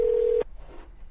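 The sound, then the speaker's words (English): A telephone dial tone sounds while calling a caller back: one steady, even-pitched hum heard alone for under half a second, then cut off abruptly, leaving only faint low background noise. “Should we call him back? Yes. Let's call him back and get him on the air.”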